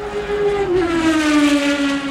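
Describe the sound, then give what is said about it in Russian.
Race cars speed past a crowded grandstand: a continuous, loud, high engine whine that drops slightly in pitch partway through and then holds steady, with no voices. “Вот одна промчалась. Еще одна. И еще. Сколько машин гоняется.”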